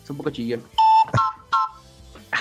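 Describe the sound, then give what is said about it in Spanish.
A single short, bright, shrill note comes from an Andes keyboard wind instrument and is held steady for about a quarter second. Voice sounds surround it. “Ahorita voy a tocar una notita, pero un poco más lejos porque el Andes sí. Es un poco chillón.”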